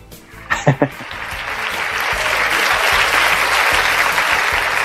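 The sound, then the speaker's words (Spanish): Audience applause for a guest at the close of an interview, rising from a few separate claps into a loud, steady, dense wash of clapping that holds to the end. A brief voice is heard near the start. “Y hay un aplauso para Marcelo.”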